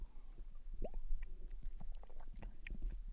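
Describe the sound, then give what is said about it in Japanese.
Wet sipping and swallowing sounds of someone drinking a sweet, bitter-tasting drink: a close run of squishy gulps and mouth noises over a steady low hum. “匂いは甘くて割といい匂いがしますよ。うん、じゃあちょっと飲みますね。”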